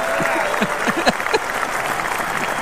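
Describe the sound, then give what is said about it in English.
Studio audience applause on a live sports talk radio show: a dense, loud, even wash of clapping that holds steady throughout, with a voice briefly heard over the first part. “Can you give a round of applause”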